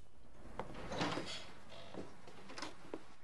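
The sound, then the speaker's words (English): A bedroom door in a darkened house opens quietly, marked by a few soft clicks and a brief muffled rattle. The sounds are faint and sparse against a low hiss, and no one speaks. “He opens his bedroom door and tentatively creeps down the darkened stairwell, holding lightly onto the banister as he goes.”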